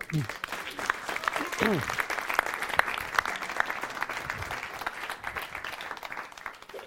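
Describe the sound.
Audience applause welcoming a speaker at a church gathering, with steady clapping throughout and brief voices near the start.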